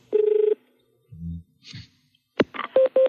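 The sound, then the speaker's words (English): Telephone dialing tones as a live call is placed: a steady, rapidly pulsed tone at the start, then a few low muffled thumps, and finally a cluster of short, bright tone bursts at the end. “As always, amuse yourselves during the dialing bit.”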